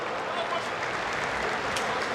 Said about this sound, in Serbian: ali aplauzi za mladog fudbalera Crvene Zvezde